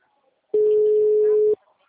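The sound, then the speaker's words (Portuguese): A telephone ringback tone sounds while a number is being called: one loud, steady, mid-pitched beep about a second long, with faint talk before and after it. “Eu tô ligando, que nem agora tá chamando pra você. Tá chamando bastante, provavelmente ele não vai atender.”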